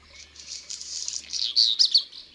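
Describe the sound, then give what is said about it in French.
A redstart sings a thin, high-pitched warbling phrase, faint at first and swelling into brighter, sharper chirps near the end, heard alone without voices. “C'est un rouge-queue.”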